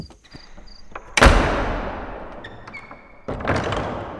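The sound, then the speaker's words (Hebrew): A door slams shut, then a second slam follows as doors are closed on both sides to trap people inside; each is a loud, sharp thud with a long, fading echo over a faint background hum. “מי סגר את הדלת? מה זה? גם בצד השני סגרו את הדלת.”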